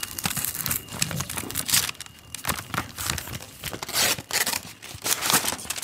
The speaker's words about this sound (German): Der goldene Umschlag. Ich mache ihn mal auf.